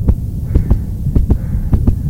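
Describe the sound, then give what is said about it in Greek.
A shop assistant's heartbeat throbs steadily and loud: about four low lub-dub double thuds over a constant deep hum. “Αυτός είναι ο ήχος του καρδιακού παλμού ενός βοηθού καταστήματος.”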